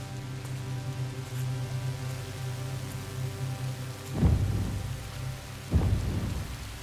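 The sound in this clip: Steady rain falls in a storm at a cave entrance, a continuous hiss joined by two deep rolls of thunder in the final seconds.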